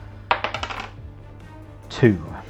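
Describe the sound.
Six-sided die rolled during a tabletop role-playing game, clattering in a quick burst of sharp hard clicks that bounce and settle within half a second.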